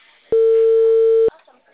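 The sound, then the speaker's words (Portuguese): A telephone line tone heard right at the start of a call, a busy-line signal taken to mean the number was flagged as spam: one steady, mid-pitched beep lasting about a second, loud and clean, then near silence. “porque quando aparece essa, tipo assim, essa linha ocupada logo no começo, já quer dizer que a pessoa colocou no spam.”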